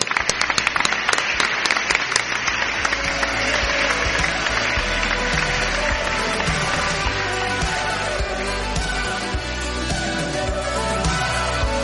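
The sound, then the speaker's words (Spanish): Applause from a large audience gathered at a live-streamed event: dense, sustained clapping that stays loud and steady for about twelve seconds, with sharper individual claps standing out at the start. “un aplauso para toda esta gente. Un aplauso.”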